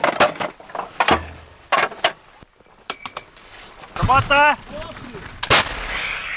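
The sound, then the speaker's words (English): Artillery fires rounds as soldiers work fast to hit Russian positions amid ammunition shortages. Several sharp, loud booms and metallic clanks come in irregular bursts, with voices between them. “the soldiers have now been given a target, and they're working as fast as possible to try and fire as many rounds as accurately towards the Russian positions.”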